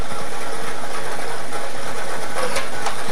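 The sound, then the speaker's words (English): A lottery draw machine spins its balls, giving a continuous mechanical whirring clatter of rattling and knocking. It stays loud and fairly even throughout, with no voices over it. “It's time to play Draw the Line for Thursday, the 7th of May, 2026. Let's get these balls spinning.”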